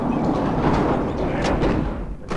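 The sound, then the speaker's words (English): Barn doors pulled shut as a sports car pulls in behind a truck: a rumbling, rattling slide with several sharp knocks and clacks, ending in a bright final bang. “As the sports car pulls in behind the truck, Red closes the barn doors.”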